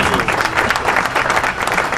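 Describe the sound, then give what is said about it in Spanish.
Applause sound effect played from a computer during a rock oldies event, a dense, steady burst of many hands clapping that holds evenly for about two seconds with no voices over it. “Vamos a poner los aplausos. Ahí está, los aplausos cuando le dé la gana a la computadora.”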